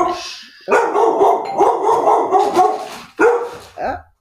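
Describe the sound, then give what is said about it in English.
Dogs bark at a ringing doorbell, a rapid, loud string of excited barks and yips in several bursts, broken by a short pause near the end and closing with one last fainter burst. “This is what happens when you have dogs and somebody rings the doorbell.”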